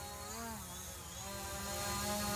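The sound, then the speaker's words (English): A drone's buzzing whine as it is flown up into the air at the Mound Builders Country Club, a steady harmonic drone with gently wavering pitch that grows slightly louder toward the end. “LA's putting a drone up in the air.”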